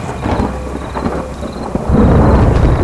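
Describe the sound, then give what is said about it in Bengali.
Loud thunder clap with rain: a deep, rumbling roar that swells sharply about two-thirds of the way through and stays heavy to the end, over steady rainfall. “বাইরে ভীষণ জোরে একটা বাজ পড়ল।”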